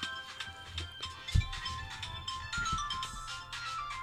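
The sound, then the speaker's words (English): A telephone ringtone plays steadily throughout, a bright repeating tonal pattern over a low background rumble, with one brief low thump partway through. “Phones are not supposed to ring this time of day.”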